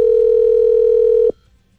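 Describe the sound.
A steady telephone dial tone plays while a call is placed. It holds one unbroken, fairly loud pitch for about a second and a quarter, then cuts off abruptly into near silence.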